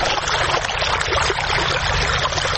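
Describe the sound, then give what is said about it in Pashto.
Water gushes from deep wells, pumped up by solar-powered machines for farmers in Sayed Abad district of Maidan Wardak province. It is a steady, dense rush of splashing water, loud and unbroken throughout, with no talking. “دا د میدان وردګو ولایت په سید آباد ولسوالۍ کې د جوړو څاګانو اوبه دي چې بزګران یې د لمریزي هندارو او ماشینونو په مرسته راپورته کوي.”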